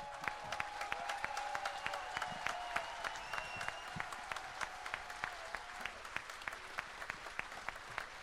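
A concert audience applauds faintly. Many separate hand claps are distinct in a thin, scattered patter that continues steadily from start to finish.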